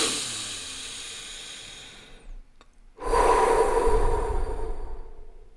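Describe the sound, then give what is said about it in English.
Conscious, deep breathing: a long, hissing draw of air that slowly fades, a short pause, then a stronger, fuller rush of breath that gradually eases off, with no talk. “it's as simple as switching on conscious breathing. So moving from autonomic breathing, which is always happening, to”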